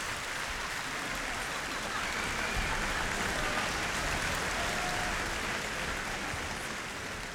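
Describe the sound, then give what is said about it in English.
Audience applause at the Portland Symphony Orchestra's season-opening concert, a standing ovation that forms a soft, rain-like wash of clapping and stays steady throughout. “And now the soloists, conductor and Robert Russell, exit. But the audience isn't letting up. And here they are again. And it's everybody up.”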